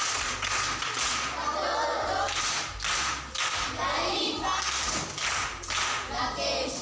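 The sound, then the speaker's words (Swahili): Applause for a primary-school girl performer: many hands clap steadily in fairly even rhythmic pulses, loud and sustained throughout the stretch. “makofi kwa shangazi.”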